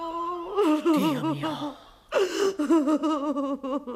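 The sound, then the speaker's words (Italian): A woman cries in high, wavering wails with gasping breaths, two long sobbing bursts split by a brief pause, the pitch quivering up and down throughout. “Ma scusi, lei perché piange?”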